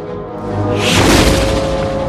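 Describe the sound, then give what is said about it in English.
A gunshot rings out during a town gun contest: one deep, loud boom swells near the middle and leaves a broad rumbling wash that continues to the end over a steady low tone. “Ellen flinches at the shots. The town clock shows one. Spotted Horse shoots his opponent.”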